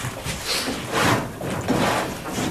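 A wooden wardrobe is opened and searched, giving a few dull, rustling scrapes and knocks of wood moving, spread unevenly across a couple of seconds.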